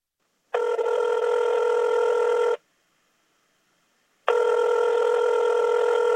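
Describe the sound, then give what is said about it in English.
A telephone ringing after a number is dialed: two long, steady electronic rings, each lasting about two seconds, with a silent pause between them. “So he dialed her up and waited for her to answer.”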